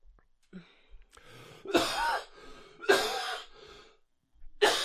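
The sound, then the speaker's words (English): Three harsh, throaty coughs from a man whose voice is hoarse, evenly spaced and fairly loud, with faint breathing between them and no talk. “Now I feel like I need to cough after doing the in a world.”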